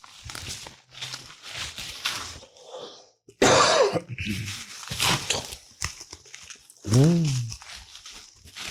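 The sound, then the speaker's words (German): Bubble wrap crinkles and crackles as a parcel is carefully unpacked, coming in irregular rustling bursts, with a cough and brief vocal sounds mixed in. “Bitte ganz vorsichtig auspacken. Oh, das ist nicht. Ist nichts drin? Knackfolie.”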